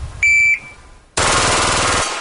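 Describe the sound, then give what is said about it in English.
A handgun fitted with a Glock switch fires fully automatic: a dense, loud, rapid burst of shots lasting about a second. A short, high electronic beep sounds just before it. “With one trigger pull, this handgun is firing 20 bullets in a second. It's possible because of a Glock switch device.”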